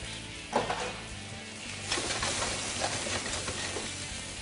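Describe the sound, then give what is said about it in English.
Brussels sprouts and dill poured into a hot pan, setting off a steady sizzle with a couple of sharper crackling bursts as the vegetables land and are stirred. “Pour our vegetables in here. Got some Brussels sprouts, a little dill.”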